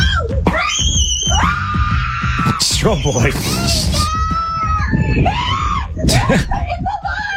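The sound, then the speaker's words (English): People screaming and yelling at a dog that won't drop what it has: shrill, drawn-out shrieks and sharp cries burst out repeatedly, mixed with excited talking between them. “in case you're wondering what all the screaming is about”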